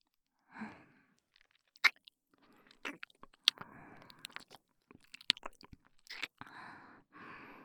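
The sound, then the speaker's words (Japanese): Licking sounds from a mouth: a scattered series of soft, wet smacks and sharp clicks separated by short pauses. They are fairly quiet, and no one talks. “おいしいから舐めてます。”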